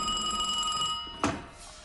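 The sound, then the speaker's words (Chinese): A telephone bell rings in a steady, high, sustained trill, then breaks off and is followed by a single brief knock. “长官，华北方面军司令官的电话。”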